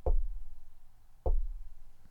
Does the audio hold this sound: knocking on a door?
yes

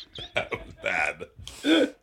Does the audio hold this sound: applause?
no

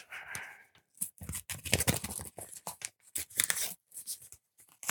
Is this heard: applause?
no

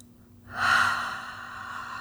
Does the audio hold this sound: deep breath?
yes

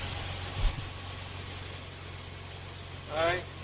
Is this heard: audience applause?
no

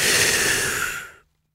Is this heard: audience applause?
no

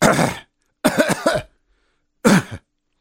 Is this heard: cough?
yes

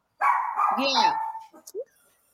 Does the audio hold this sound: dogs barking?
yes

